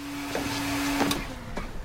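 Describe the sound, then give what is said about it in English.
Vacuum cleaner running while a rental minivan is cleaned out, giving a steady motor hum with a few brief bumps and scraping surges along the way. “And in this scene, Danny McBride's character is vacuuming out like a minivan, a rental minivan”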